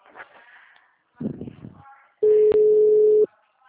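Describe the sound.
A phone call's ringing tone sounds once as a steady, mid-pitched beep lasting about a second, after a few moments of brief talk.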